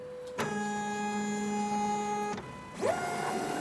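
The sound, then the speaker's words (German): Whirring, tonal whine of a 3D printer at work in a Zurich print shop, running blue plastic filament inside a plexiglass box; a steady multi-tone motor hum stops briefly near the end, then resumes with a tone that sweeps upward and settles. “Im Druckladen 3D-Model.ch klingt's, wie es beim Drucken eben klingt.”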